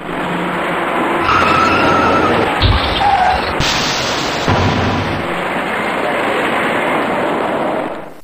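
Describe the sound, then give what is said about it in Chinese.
Cars slowing and braking sharply on the side road of a city ring road near a major overpass in late morning, heard as a loud, continuous broad traffic roar with a few heavier low thumps partway through. “由于前方有些不太好走，行驶在辅路里面的车辆纷纷减速刹车”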